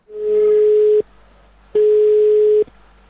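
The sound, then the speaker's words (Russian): Telephone ringing tone on an international call placed to Finland: a steady, mid-pitched electronic tone sounds twice, each lasting about a second, separated by a short silence. No one speaks. “Финляндии, и туда я ему и позвоню. Я не знаю, будет ли хорошо слышно. Давайте попробуем.”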